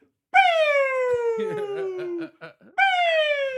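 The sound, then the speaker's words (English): A human voice imitates an ambulance siren with a long wailing tone that slides steadily downward. Brief chatter or laughter follows, then a second wail begins high again. “That's the sound of an ambulance coming to take me away because the sight of you stopped my heart.”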